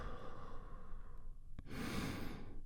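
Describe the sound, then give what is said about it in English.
Big, deep breath released in a soft, airy exhale near the end, after a stretch of steady, quiet breath noise and a brief click. It is faint, with no talk. “And we do that by taking a big, deep healing breath all together. Here we go. And release.”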